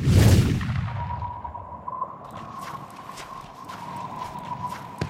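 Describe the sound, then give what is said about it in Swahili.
Quick, successive footsteps of someone hurrying closer: a loud opening rumble, then a regular run of faint clopping steps over a steady hum and low background noise. “Hatua za haraka haraka na za kufuatana, anaonekana mtu kwa mbali anakuja kwa haraka.”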